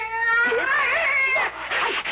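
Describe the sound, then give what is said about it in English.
A cat gives a drawn-out, wavering meow after being told to get off a wing chair, a short complaining yowl with little else around it. “So, I think you'd better get down. Come on, cat. Get down. Get off my chair.”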